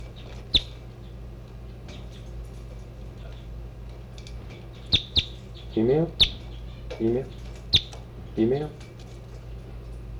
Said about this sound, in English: I'm half a meter from the new birds.